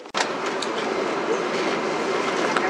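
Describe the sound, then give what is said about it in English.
Beijing subway train pulling into Jintai Xizhan station, a loud, continuous rumble of wheels and carriage with faint rhythmic clatter, holding steady throughout with no talk. “We are arriving at 金台西站 station.”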